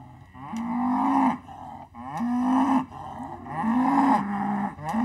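Mother cow in a herd mooing for her calf, which has wandered off. Three long, deep, loud calls come in a slow repeating rhythm, each swelling and then tailing off, with no other sound.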